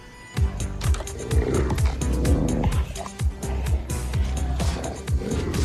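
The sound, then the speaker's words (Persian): Wild wolf growling: rough, fierce snarls and growls come in many overlapping bursts, rumbling low and thick for several seconds with no pause. “بعد یهو سر و کله یه گرگ وحشی پیدا شد.”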